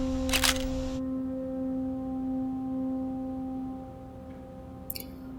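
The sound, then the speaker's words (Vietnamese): Camera shutter firing to photograph blood evidence at a crime scene: two short, bright clicks, one near the start and one near the end, over a steady low electrical hum. “Chụp lại đi.”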